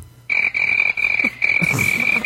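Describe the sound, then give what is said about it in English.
A cricket-chirping sound effect gives a steady, high, piercing trill that carries on with only brief gaps, while some low rustling noise rises beneath it toward the end. “You know, we got to try that cricket one out.”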